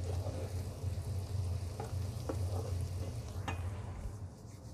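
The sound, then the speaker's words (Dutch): Garlic fries in butter in a pan with a steady, soft sizzle and crackle, a few faint ticks popping through a low hum underneath. “Die bak ik heel even mee. die geur meteen. Knoflook en boter.”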